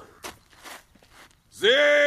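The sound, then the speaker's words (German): Footsteps of a captain walking toward a mountain: a few soft, separate steps at a slow pace, then a loud, steady sustained tone takes over. “Jetzt geht der Hauptmann auf den Berg zu.”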